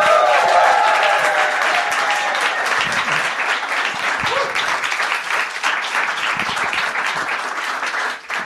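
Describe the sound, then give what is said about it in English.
An audience claps in loud, dense, sustained applause to welcome a comedian onto an interview show. The clapping holds a steady level for about eight seconds, then dips briefly at the very end. “Ladies and gentlemen, please welcome an absolute powerhouse among comedians. Give it up for Hannah Gadsby.”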